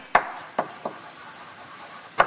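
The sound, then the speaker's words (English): Writing on a board during a lecture: four short, dry scratching strokes at uneven intervals, fairly faint, with no talk. “So just let me write what's happening here.”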